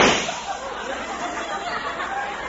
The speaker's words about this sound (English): Now I grasp it here. I aim it, and I pull the trigger.